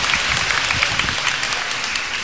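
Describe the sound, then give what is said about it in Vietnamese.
Dense, steady applause from an audience during a Bible quiz with prizes at a church gathering, a continuous patter of many hands at even loudness for the whole stretch. “chúng ta cho một tràng pháo tay”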